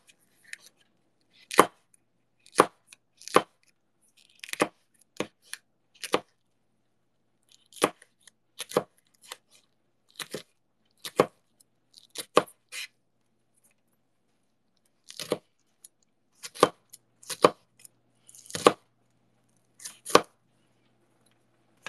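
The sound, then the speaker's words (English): Spicy peppers being chopped with a knife on a board: many sharp, crisp strikes come in quick bursts separated by short pauses, loud and clear with no talking. “Chop these up.”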